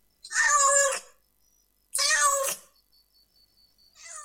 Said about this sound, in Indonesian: Kucing. Kucing. Cat. Cat.